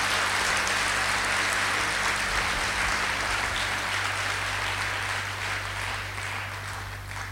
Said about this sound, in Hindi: हम बड़े प्यार से, बड़े दिल से दादी जी के सम्मान में करतल ध्वनि से उनका स्वागत करेंगे।